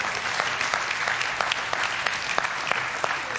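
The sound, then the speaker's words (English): Audience applause welcomes a guest pastor at a church service: thick, continuous clapping with a few sharper individual claps popping out of the steady roar throughout. “We want to welcome him. Let's give him a big hand.”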